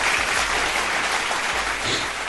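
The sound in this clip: Audience applause at a speech on Bihar's economic growth: a dense, continuous wash of clapping that holds at an even, fairly loud level throughout.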